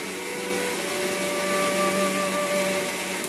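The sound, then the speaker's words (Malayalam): A kitchen mixer grinder grinds roasted coconut, dried chilli, coriander and fenugreek, giving a loud, steady motor whir with a high whine and gritty rattle that holds evenly from start to finish. “ഈ ഒരു mixie തണുത്ത ശേഷം മിക്സിയിലിട്ട് നന്നായിട്ട് നരച്ചെടുക്കാം കേട്ടോ.”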